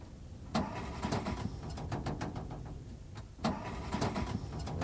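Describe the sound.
A 1950s car engine that has stalled is cranked by its starter and fails to catch. Two attempts of fast, rhythmic chugging whir start sharply and run over steady mechanical noise.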